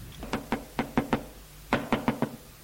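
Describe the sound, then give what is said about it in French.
Knocking on a bedroom door: two quick bursts of sharp, hollow raps, five knocks and then four after a short pause. “Frappe à la chambre de la mère d'Anne.”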